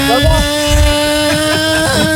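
A scooter engine runs steadily, a constant humming drone with a few heavier low rumbling surges.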